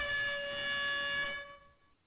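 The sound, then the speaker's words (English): An air horn sound effect blares as one sustained, steady, harmonically rich blast. It holds for over a second and then tapers off into silence. “So let me hit the air horn on the show.”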